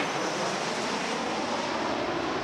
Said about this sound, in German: Ihre Arbeit fordert viel Konzentration. Und das, während permanent Flugzeuge nur wenige Meter über ihre Köpfe hinwegdonnern.